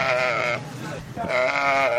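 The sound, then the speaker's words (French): Sheep bleat loudly at a livestock market where rams are sold for the Tabaski festival. Two long, wavering, nasal bleats sound with a brief dip between them, and faint crowd noise sits underneath. “Au marché de Trois Coups, comme celui de la rive droite, les moutons pour la Tabaski sont plus chers comparativement à l'année passée à la même période.”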